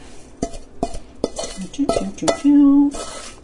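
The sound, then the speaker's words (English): A tomato, onion, coconut, spice and garlic mix is scraped into a pan, with many irregular spoon knocks, clinks and scrapes against metal and one longer ringing scrape near the end. “now we're going to add this mix of the tomatoes and onions and coconut and spices and garlic. Scraping all that in.”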